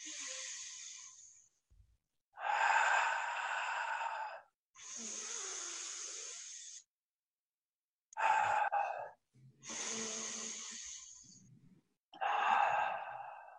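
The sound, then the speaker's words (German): Deep connected breathing drawn into the belly and chest, then released: six long, loud breaths separated by short pauses in a steady, wave-like rhythm, with no talking. “Und dann senkt sich schon so ein bisschen der Bauch und ich kann ausatmen. Und das ist sozusagen die Wellenatmung oder die verbundene Atmung.”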